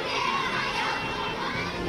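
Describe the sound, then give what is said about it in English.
Children cheering and shouting in welcome for Vladimir Putin's arrival, a faint, continuous mass of high young voices blending into a steady crowd roar. “And the children welcoming and jumping in joy for Vladimir Putin.”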